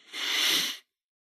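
A person inhales deeply during a breathing exercise, one steady breathy hiss lasting under a second and then silence, with no talk.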